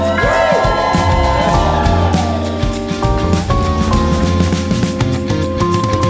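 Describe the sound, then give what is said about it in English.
A live audience at a recorded orthodontics show cheers and whoops, and the loud crowd noise rides over steady music with sustained, stepping tones. “Ooh, I can hear the crowd.”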